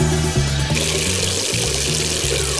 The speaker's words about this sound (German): Das Wasser kommt aus der Leitung, oder?